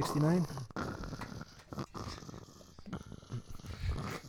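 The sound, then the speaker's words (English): A voice imitates Darth Vader's heavy breathing: a raspy, rhythmic hiss of in and out breaths that follows a brief vocal sound at the start. “We have Darth Vader Ginsburg on the other line, breathing heavily.”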